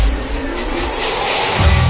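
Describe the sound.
A car engine roars loudly and steadily with a gritty revving texture, then a deeper low surge builds near the end.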